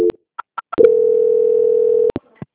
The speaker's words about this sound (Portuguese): Então você aguarda só um instante na linha, eu vou fazer a transferência, tá?